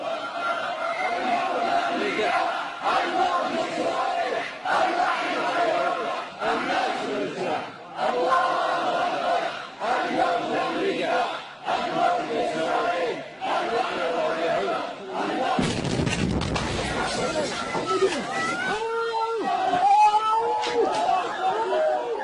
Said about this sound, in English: these are Shia Houthis, yelling this right before a Sunni Arab terrorist from al-Qaeda in the Arabian Peninsula comes into the mosque and detonates a suicide vest. We have audio, we have video. Here's what it sounded like.